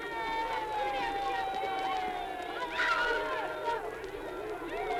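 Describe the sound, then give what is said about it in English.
Happy children at a youth conservation camp in the Ocala National Forest: high young voices call and shout over a steady babble of a crowd at play, moderately faint and continuous. “That was the sound of happy children at the Youth Conservation Camp in the Ocala National Forest.”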